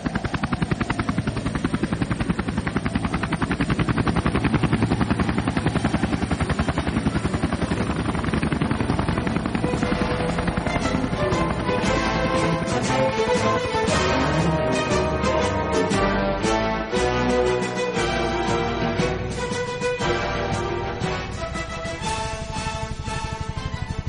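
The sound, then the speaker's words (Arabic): Military aircraft take off and fly low, about 10 to 15 metres, on a bombing mission against oil tanks in a radio drama: a loud, dense engine and rotor roar throughout, with rapid sharp bursts of gunfire joining in the second half. “السادة الطيارين، الطيران هيكون عكس اتجاه الريح على مسافة منخفضة من 10 إلى 15 متر. علم يا فندم. على بركة الله نبدأ المهمة.”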